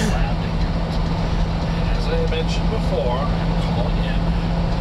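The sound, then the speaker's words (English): Truck engine idling: a loud, steady low rumble with a constant droning hum, holding at an even level throughout. “Your truck's a little loud”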